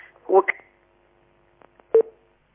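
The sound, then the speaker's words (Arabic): Telephone line tones sound as a call to a call-in religious advice program disconnects. A brief voice fragment comes first, then a few short, sharp tone bursts, the last one loudest, before silence. “هل ما زال الاتصال معنا؟ يبدأ الاتصال انقطع”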